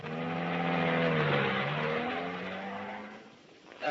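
A car pulls away carrying passengers. Its engine note swells and wavers under acceleration, then holds a steady drone before fading near the end.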